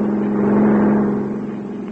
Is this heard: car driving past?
yes

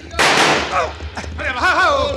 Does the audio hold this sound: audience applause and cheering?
no

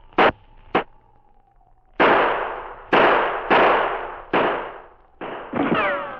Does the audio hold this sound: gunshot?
yes

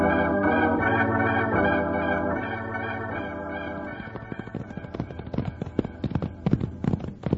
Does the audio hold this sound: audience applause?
no

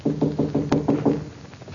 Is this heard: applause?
no

